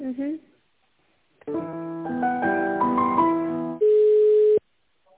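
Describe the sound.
Telephone line tone during a call transfer: after a brief voice, a run of layered electronic tones plays, then a single steady, even tone holds for under a second before cutting off.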